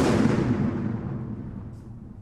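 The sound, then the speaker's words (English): A TM-46 anti-tank mine is detonated in a controlled demolition during mine clearance. The heavy blast is loud from the start, then decays into a rumbling roar that fades steadily over about two seconds. “In February 2012, a few hundred metres from the site of this demolition, a similar TM-46 anti-tank mine killed 8 people in a single explosion.”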